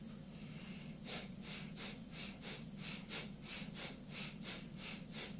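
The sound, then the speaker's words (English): Rapid, forceful bellows breathing of mild bhastrika yoga: after about a second of steady low hum, many evenly spaced, sharp breath bursts follow in a brisk, regular rhythm. The hum continues underneath. “And now the last round is a bhastrika, mild bhastrika. And it's like this.”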